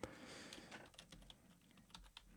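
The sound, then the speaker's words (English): Typing on a computer keyboard produces a faint, uneven stream of many quick key clicks over a soft steady hiss, with no talking. “just got to type it in right here. Don't mind the clicking of my keyboard.”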